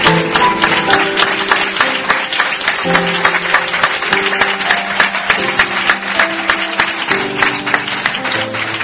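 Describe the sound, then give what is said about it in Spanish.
Audience applause for a family at a tribute ceremony where flowers are presented: dense, steady clapping that runs the whole clip at an even level, with sustained tonal notes running beneath it. “El aplauso anterior era para Don Enrique Vila y este para la familia de Don Enrique Vila.”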